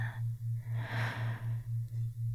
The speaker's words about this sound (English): Watch me breathe. In.